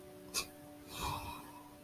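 A yawn, faint and breathy: a drawn-out airy exhale lasting under a second with a soft voiced tone in it, preceded by a short click.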